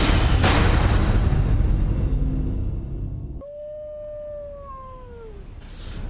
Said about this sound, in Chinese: 后边那片乱石岗子里每一天都有狼嚎啊，太吓人了。